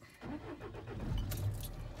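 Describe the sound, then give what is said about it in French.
A car's ignition is switched on and its engine started, with keys jangling in a short burst of clicks and rattles over a low rumble. “on va mettre le contact, on va démarrer”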